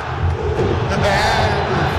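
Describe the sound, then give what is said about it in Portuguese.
Football fans chanting in the Mineirão stadium during a Cruzeiro match, a dense crowd chorus that stays loud and sustained throughout, with no pause. “Trocou, olha a torcida convidando o Jardim a tomar suco de caju.”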